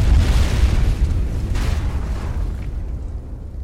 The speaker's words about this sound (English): Before Virat could utter a word of warning in his mouthpiece, an explosion blossomed in the distance.